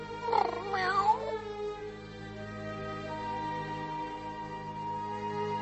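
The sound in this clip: A cat meows once, a loud, drawn-out wavering cry near the start, followed by several seconds of near silence with only a low steady hum.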